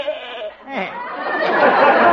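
Goat bleating, a single wavering, nasal call that starts after a brief pause and holds for over a second at moderate loudness.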